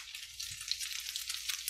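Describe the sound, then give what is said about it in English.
Food frying in hot olive oil, a faint, steady high sizzle that crackles softly and continuously without pause. “see how beautiful they're cooking up nice. I used olive oil. I'm using olive oil to cook those.”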